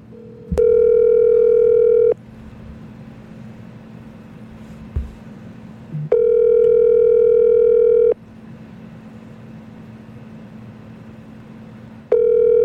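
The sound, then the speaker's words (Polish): Telephone ringback tone on an outgoing call: a loud, steady electronic buzz that sounds in long bursts of about a second and a half, separated by silent gaps. Three bursts are heard, and the last is cut short. “Better yet, I'll call Bolek myself. Might be faster.”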